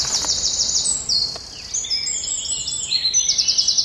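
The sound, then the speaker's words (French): Loud, high-pitched bird song from a small brown, finely striped bird with a tawny tail, which sings with its tail cocked. Rapid trilled and warbling phrases run almost continuously throughout, with no voices. “C'est un tout petit oiseau, tout marron, avec plein de petites rayures, on le reconnaît comme ça. Il a la queue fauve et il chante avec la queue en l'air, juste à côté de nous.”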